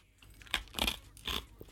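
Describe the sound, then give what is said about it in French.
Crisp crunching of an ice cube from a chilled drink being bitten and chewed, with a few sharp, bright crunches in an uneven rhythm, fairly faint overall. “Et aussi que croquer un glaçon, si c'est important de croquer un glaçon.”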